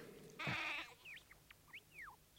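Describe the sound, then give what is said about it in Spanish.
A goat gives a single short, wavering bleat, followed by a few faint, quick high chirps in otherwise quiet surroundings. “Perdonad un momento, que voy a llevarle esta hierba fresca a Cuerno Gris. ¿A quién? A la cabra.”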